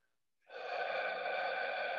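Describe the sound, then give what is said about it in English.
A deep cleansing breath let out in one long exhale: a steady, breathy rush of air that starts abruptly and holds at an even level for about a second and a half, with no talking. “we'll do one deep cleansing breath. Begin by breathing out all your air,”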